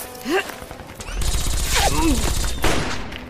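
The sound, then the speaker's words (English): Gunfire in an audio drama shootout at a house: bursts of rapid shots and a loud volley that run from about one second onward, with shouting voices in between. “He's shooting back! Open fire! He's firing from inside the house!”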